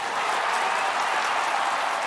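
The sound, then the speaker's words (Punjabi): Brief, steady applause from an audience at a live Punjabi music performance by three singing brothers, given as a tribute to their late teacher. Dense clapping holds at an even level for about two seconds. “ਉਹਨਾਂ ਦੇ ਨਾਂ 'ਤੇ ਇੱਕ ਵਾਰ ਜ਼ੋਰਦਾਰ ਤਾੜੀ।”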